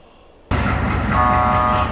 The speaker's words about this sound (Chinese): 在火车的汽笛声中，从北京国际陆港开行的第100列国际班列正式出发，前往白俄罗斯。